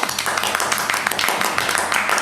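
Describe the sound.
Clapping for the winner of a game, with several hands beating quick, irregular claps and voices mixed in.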